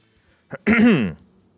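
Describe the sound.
A single brief throat clearing: a short rasping catch followed by a gravelly voiced rumble, loud against otherwise quiet surroundings.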